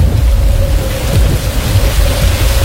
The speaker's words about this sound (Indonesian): Langit semakin gelap, angin semakin bertiup kencang. Hujan pun turun.